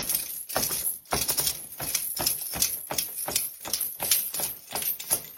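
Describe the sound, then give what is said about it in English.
Foley hoofbeats made by striking a hard object against the ground in time with a horse's movements, mimicking a horse's hooves. A steady, even series of sharp clopping knocks runs throughout at moderate loudness. “they'll work on the horse's hooves by hitting a hard object against the ground in time with its movements.”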